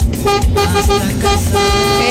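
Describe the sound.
A car horn honks in a few loud, brassy blasts with a rich, buzzing tone, strong and steady across the short clip.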